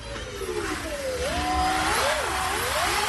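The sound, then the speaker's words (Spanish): Car motor noise from a comparison of a combustion engine and an electric motor: a loud, dense, steady roar carrying a thin whine that sweeps up and down in pitch, continuous without a break. “el primero es un clásico motor de combustión, el segundo es eléctrico”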